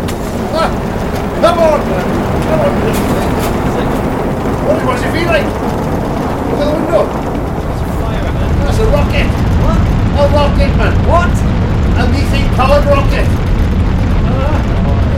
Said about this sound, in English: Look at the window. It's a fire, man. That's a rocket. What? A rocket, man. What? A methane-powered rocket.